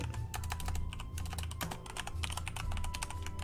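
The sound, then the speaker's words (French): Rapid typing of a single word on a computer keyboard: many quick, crisp key clicks in an uneven stream, fairly quiet, over a steady low background rumble. “Alors, j'écris juste un mot pour ça, finir.”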